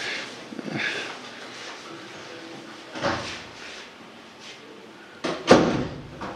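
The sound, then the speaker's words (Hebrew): A door being closed, heard as a few soft bumps and knocks, with the loudest thud near the end, alone and fairly faint. “אני רואה שקר לך, אבל סגור את הדלת.”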